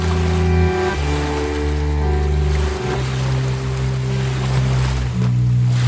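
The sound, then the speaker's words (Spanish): River water rushes in a continuous broad wash, with a steady low droning tone running beneath it the whole time. “Trae los sonidos del río hasta vos.”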